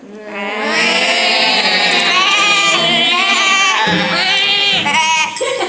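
Goats bleating among farm animals, loud, wavering nasal cries that run almost without a break and shift in pitch several times.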